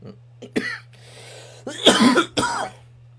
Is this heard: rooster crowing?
no

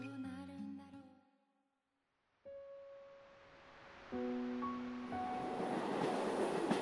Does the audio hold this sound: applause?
no

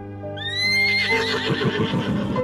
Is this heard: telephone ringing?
no

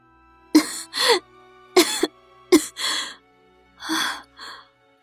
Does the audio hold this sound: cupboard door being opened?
no

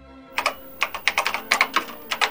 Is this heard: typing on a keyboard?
yes

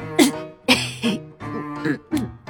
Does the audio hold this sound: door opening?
no

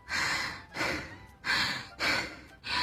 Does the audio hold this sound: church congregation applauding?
no

